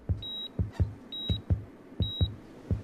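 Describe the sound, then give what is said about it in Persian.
A hospital monitoring machine beeps three times at an even pace, each beep high, clear and short. Soft low thumps pulse steadily underneath throughout. “صدای بوق دستگاه اول سپیده و بعد دکتر را نگران می کند.”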